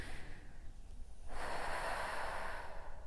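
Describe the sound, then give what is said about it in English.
A deep breath taken during a grounding meditation: one long, airy, breathy rush that begins softly and swells into a steady, loud, sustained flow with no talking. “you take like 3 deep breaths.”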